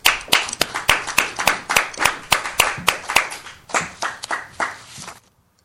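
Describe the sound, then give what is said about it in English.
An audience claps to welcome a speaker to the stage. The claps are crisp, fairly loud and quick, with an uneven beat. They carry on for about five seconds and then stop abruptly. “Let's welcome Walter Donway.”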